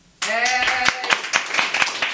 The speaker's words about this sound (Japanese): あれ、なんか今拍手とイエーなんて声が入りましたが